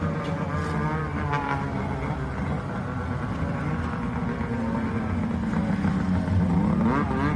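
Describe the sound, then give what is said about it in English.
Four snowmobiles drive past at night, their engines making a continuous loud, buzzing roar that holds steady throughout, with shifting whining tones layered in the drone. “Yeah, four snowmobiles there. I gotta say, at night, it did look really, really cool. It was a little bit loud.”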